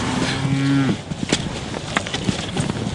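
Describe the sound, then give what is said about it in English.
Pregnant cows moo as they are moved through a gate into another paddock. One long, low moo comes first, followed by scattered faint knocks and shuffling. “The pregnant cows move through into another paddock and one hangs back for a scratch.”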